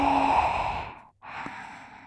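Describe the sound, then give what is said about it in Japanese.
A long, breathy exhale during a guided breathing exercise, with steady airflow, a brief silent pause and then another softer breath. “吸って、息を吸うのは気持ちいい。吐いて、”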